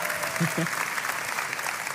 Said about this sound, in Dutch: Geef haar even een groot applaus.